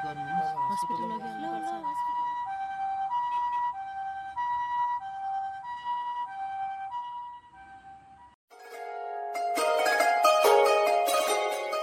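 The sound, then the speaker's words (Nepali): An ambulance siren sounds a steady two-tone wail, alternating high and low in a regular pattern, then a sudden, louder, denser burst of mixed noise takes over near the end. “हेर हसिना पो रहेछ, के हो ambulance आउँदैछ त छ नि।”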